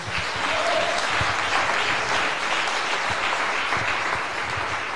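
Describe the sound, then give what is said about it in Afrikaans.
Sustained applause from an audience at a church revival service in a correctional centre, many hands clapping in a dense, even wash that stays loud for the whole stretch. “Kom ons gee hom 'n hande klap.”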